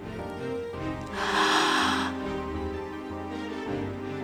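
Deep breathing during a meditative prayer: a long, airy inhale swells for about a second, followed by softer breath sounds, all over a steady, quiet musical drone.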